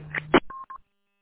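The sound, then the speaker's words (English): Telephone dialing tones beep in quick succession, a few short, clean electronic pitches in a brief burst before silence. “Yep, phone call.”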